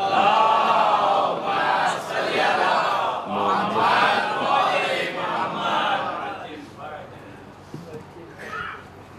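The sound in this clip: A crowd at a religious address recites salawat together in response to the speaker. Many voices chant in unison in loud, swelling waves that gradually fade toward the end.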